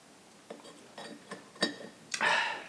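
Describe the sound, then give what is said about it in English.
A small spoon stirring espresso taps and clinks against the cup in a few light, bright ticks at uneven intervals, each short and faint, with no voices. “I need something to stir my espresso with, so I'm going to dive straight into the espresso.”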